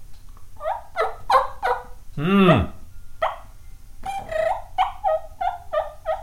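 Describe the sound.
A turkey call mimics a wild turkey, giving a run of sharp, nasal yelps with a loud, rolling gobble in the middle, followed by more yelps.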